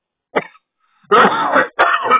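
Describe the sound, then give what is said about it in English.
Coughing, with a short cough followed by two longer, rough, harsh coughs in quick succession. “Pardon me as I cough.”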